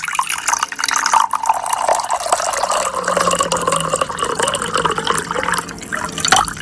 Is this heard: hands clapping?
no